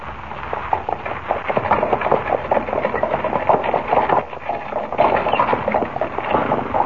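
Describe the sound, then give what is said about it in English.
Rattling clatter of a horse-drawn buckboard wagon bouncing along, a dense, steady, rhythmic knocking and jolting that carries on without a break, with no voices. “How do you like riding in a buckboard, eh? Sure does buck.”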